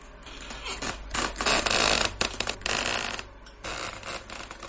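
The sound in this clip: A window swinging slowly open on dry hinges gives a series of irregular, rasping, ratchet-like creaks. They are loudest in the middle, and a shorter creak comes near the end.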